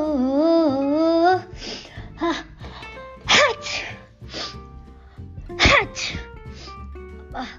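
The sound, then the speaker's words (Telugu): A few sharp sneezes burst out one after another, loud and breathy, following a short wavering sung melody at the start, in a playful story about a veena string that has caught a cold. “తుమ్మెందుకు వస్తుందబ్బా”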